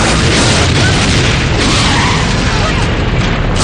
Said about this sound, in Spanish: Tras la explosión del coche se quedan en el suelo.